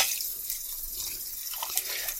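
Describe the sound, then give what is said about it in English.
Tap water runs into a bowl in a kitchen sink, filling it with detergent so the bowl can soak after bread dough is mixed. A soft, steady hiss of flowing water continues throughout, with a few faint drips. “in the sink and put a little detergent in it and fill it up so it soaks, so it'll be easier to clean when the time comes.”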